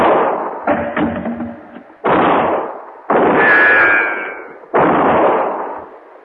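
A few loud gunshots ring out in an uneven sequence, each a heavy booming crack with a decaying tail, separated by short gaps.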